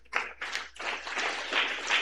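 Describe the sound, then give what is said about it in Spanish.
Congregation applause during a Pentecostal church service in Olmos: dense, continuous hand clapping with a few sharper bursts, steady and fairly loud across the whole moment. “¡Aplauso para Cristo Jesús!”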